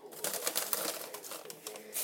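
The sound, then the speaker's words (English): Rustling of a bag or wrapping while someone searches for a dog's bone, a continuous run of crinkly, scratchy bursts of uneven loudness throughout. “Sorry about that awful rustling, everyone.”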